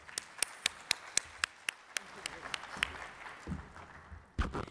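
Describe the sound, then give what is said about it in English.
An audience applauds to welcome a speaker with faint, sharp claps in a steady, evenly spaced run that loosens into scattered clapping, followed by a brief louder burst at the end. “Please put your hands together and welcome Dr. Soin.”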